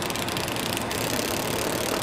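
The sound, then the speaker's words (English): The engine of a utility crew's bucket truck idles by power poles and lines along a hilly, narrow street in Rio Grande, Puerto Rico, a steady, dense mechanical rumble with no clear breaks. “They're a common sight now alongside roads in Puerto Rico. Utility crews in bucket trucks working on power poles and lines.”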